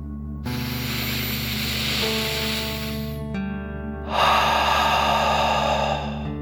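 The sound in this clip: A deep breath in and then out, done as a calming dragon fire-breathing exercise: two long, airy rushes of breath separated by a short pause, the second exhale louder and fuller than the first.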